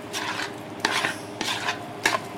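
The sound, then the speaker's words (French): A utensil stirs lemon-marinated raw fish in a salad bowl, making four soft, wet scraping strokes in an even rhythm. “Voilà, je mélange tout ce que j'ai préparé, tout ce que j'ai incorporé dans mon saladier.”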